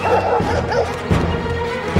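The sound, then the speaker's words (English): Guard dog chasing a chicken, barking and yipping in a dense, loud flurry of excited barks mixed with higher whining yelps. “Unleashed, the guard dog takes off after the orange chicken and the man grins. As the dog barrels toward her, the chicken bolts up a stairway.”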